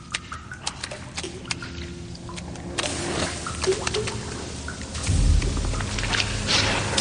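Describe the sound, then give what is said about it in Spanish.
Water drips from a ceiling onto a flooded floor in an eerie supernatural scene: many scattered drips and splashes over a steady wet hiss, swelling louder with a low rumble toward the end. “De pronto, tras un inquietante goteo del techo, un hombre vestido de blanco aparece frente a Constantín.”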